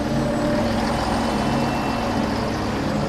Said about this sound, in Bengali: সে ধীর পায়ে রাস্তায় এসে দাঁড়াতেই একটা বাস থামল সামনে।